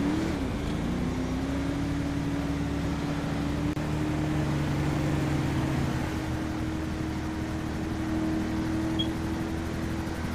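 A car is driven in a roleplay video game, giving a steady engine drone over a constant noisy bed. Its low hum dips briefly at the start, then holds an even pitch, with no talk.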